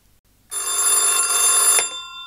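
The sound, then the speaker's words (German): A telephone rings once in a single sustained electronic trill, bright and loud with a steady buzzing tone, then cuts off abruptly after about a second and a half with no voices. “Einen Tag später wurde er wieder angerufen.”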